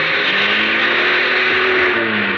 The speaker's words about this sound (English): He, he shoved the car into reverse. Oh, I hoped it had never moved.